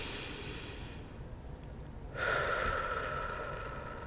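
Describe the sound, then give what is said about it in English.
A deep breath drawn in and then let out during a relaxation exercise: a soft, quiet inhale followed by a louder, airy exhale that trails off slowly, with no talking. “And the way we're going to do that is by taking a breath.”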